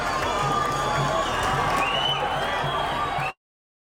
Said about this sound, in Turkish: kurulan dev ekranların etrafında toplanan binlerce Filistinli İspanya'nın şampiyonluğunu coşkuyla kutladı.